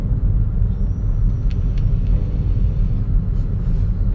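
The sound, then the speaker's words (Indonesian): Car driving, heard from inside the cabin: a steady, loud low rumble of engine and road noise that continues without a break, with a faint thin whine rising above it for a moment. “gue lagi nyetir.”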